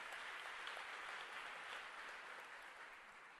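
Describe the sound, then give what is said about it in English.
An audience bursts into sustained applause, a thick, continuous wash of many hands clapping together that fades slightly toward the end. “now, you shouldn't have clapped unless you want to do it.”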